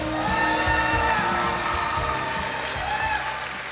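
Sustained applause from a City Church audience welcoming a woman preacher to the pulpit. The clapping stays steady and fairly loud throughout, with a low tonal background underneath.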